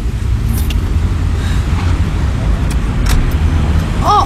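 A taxi car pulls up in traffic. A steady, loud roadway rumble of engine and tyre noise carries on throughout, with a short tonal squeak near the end.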